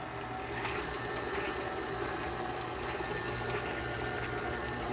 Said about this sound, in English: So I'm going to turn it on now to mix in the eggs and the vanilla.